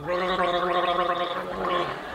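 Gargling fluid in the throat makes a voiced, bubbling gurgle that lasts about two seconds with no break, fairly faint and heard alone without talk.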